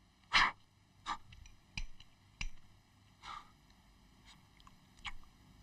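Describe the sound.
Someone eats ice cream, making a handful of sharp, wet mouth clicks and smacks spaced about a second apart, with faint breathing between them and no talk.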